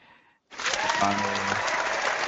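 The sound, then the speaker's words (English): Hands clapping with excitement: after a brief quiet lead-in, dense, steady clapping starts and carries on loudly to the end. “And you can tell by my clapping, I was very jazzed reading this day.”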